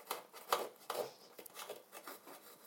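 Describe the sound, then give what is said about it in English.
Quiet cutting as the end is taken off something: a few crisp snips with soft rubbing and scraping between them, faint throughout. “In fact, I'll cut the end off it because I don't really want that. That's that done. You do have to be careful with your fingers of these things though. I do admit. Cut end off this side.”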